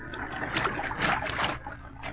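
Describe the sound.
Water splashes as someone wades in for a night swim at a beach, a few soft, irregular sloshing bursts rising and falling in loudness.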